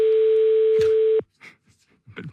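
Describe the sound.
A steady telephone line tone heard when calling a landline, holding one pitch for a little over a second before cutting off abruptly, followed by a few faint, short sounds.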